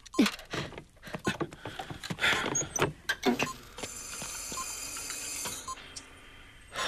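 Hospital ventilator breathing for a 97-year-old patient in a coma with a severe lung infection: a run of mechanical clicks and short breathy bursts, then a sustained, faint, high mechanical tone.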